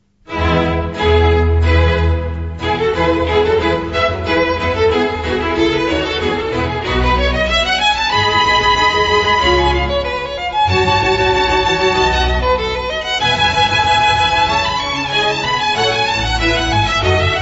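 Bach's Violin Concerto in E major, first movement allegro, played by solo violin and orchestra: bright, busy string music with a strongly marked rhythm, loud and continuous throughout.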